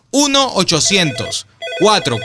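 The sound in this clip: A telephone rings after a number is dialed, a warbling electronic ring heard in two bursts separated by a short pause.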